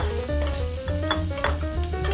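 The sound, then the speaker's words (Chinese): Shrimp and seafood filling frying in oil in a pan, a continuous loud sizzle and crackle with stirring scrapes throughout. “加鲜进来煎，好，让这个有鲜有虾的味道。 要把它煎到全熟吗？”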